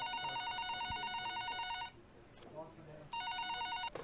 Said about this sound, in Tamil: மணி ரெண்டு இருக்கும் லேண்ட்லைனில் ஒரு கால் வந்துச்சு